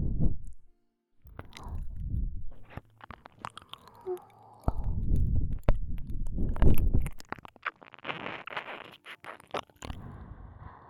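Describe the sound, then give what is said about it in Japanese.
Wet licking and mouth sounds from a tongue working over an ear in an ASMR recording. Irregular soft smacks, squishes and crackles come in clusters, quiet in places and swelling in others. “お耳を舐められる、私の舌が這い回ると、ゾクゾクと気持ちがいい、そう”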